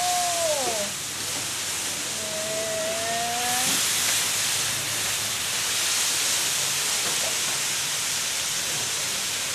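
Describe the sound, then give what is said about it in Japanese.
Ingredients and steamed noodles stir-frying in a pan for yakisoba give a steady, fairly loud sizzling hiss that runs unbroken through the whole clip. “もうこれで具材を炒めてそうですね”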